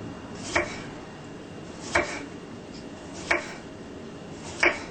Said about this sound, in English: We get cucumber. Cut them thinly.